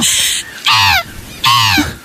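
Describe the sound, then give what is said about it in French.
A person imitates crow cawing, with a few harsh, raspy caw calls, each a loud, rough burst that breaks off sharply, separated by short gaps. “On dirait plutôt un corbeau, c'est un corbeau ça.”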